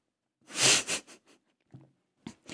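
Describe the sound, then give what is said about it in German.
A person sipping tea: a loud, breathy slurp comes first, followed by a few small, quiet gulps and mouth sounds, with no speech. “Ich muss schon wieder was trinken, Entschuldigung.”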